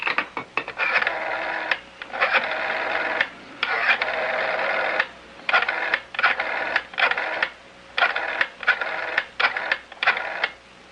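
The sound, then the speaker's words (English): A telephone being dialed and ringing, heard as a series of buzzy tone bursts, a few long ones followed by many shorter ones separated by brief gaps, with no talk. “It's an 800 number. It's toll-free. Why don't you go ahead and dial?”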